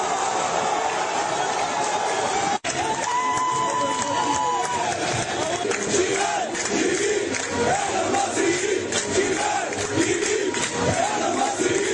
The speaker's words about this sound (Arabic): هكذا كانت فرحة الجمهور المصري بعد المباراة.